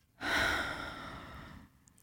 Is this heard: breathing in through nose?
yes

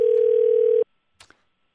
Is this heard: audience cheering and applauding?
no

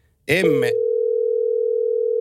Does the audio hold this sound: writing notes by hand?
no

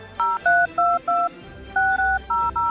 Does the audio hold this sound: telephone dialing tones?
yes

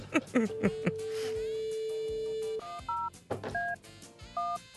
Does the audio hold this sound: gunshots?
no

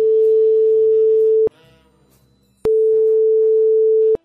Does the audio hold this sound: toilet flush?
no

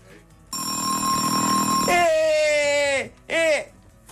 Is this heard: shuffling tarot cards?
no

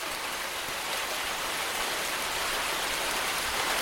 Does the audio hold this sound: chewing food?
no

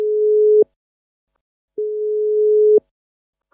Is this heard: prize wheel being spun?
no

